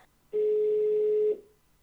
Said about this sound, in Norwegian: Nå skal jeg ringe en frisør.